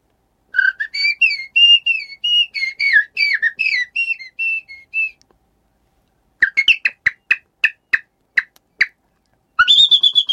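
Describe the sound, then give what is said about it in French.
Male common blackbird courtship song: about five seconds of varied, fluting whistled phrases, then a pause and a run of sharp, clicking contact calls, ending with another short burst of calls. “C'était le chant du mâle, le ramage, hein, le chant de parade.”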